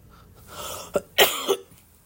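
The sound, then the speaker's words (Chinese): Three harsh coughs from someone badly ill with fever, runny nose and headache, loud and close together, following a short stretch of breathy sound. “你现在收听的是咳嗽的重症患者”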